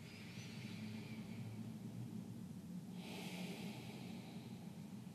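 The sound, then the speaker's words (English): A slow, breathy exhale during a breathwork exercise, faint and soft, rising into a steady airy hiss partway through and holding there to the end. “The next time you breathe out through the left, breathe all the way out.”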